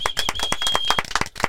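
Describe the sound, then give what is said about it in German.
Audience clapping to celebrate a one-year anniversary: a few people's sharp, fairly even claps in quick succession, with a steady high tone running under the first part. “Da können wir eigentlich schon mal nochmal klatschen fürs Einjährige,”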